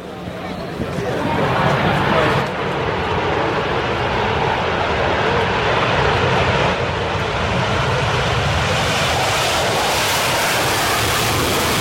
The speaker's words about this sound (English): F-18 Super Hornet holding it at the start of the runway, here it comes.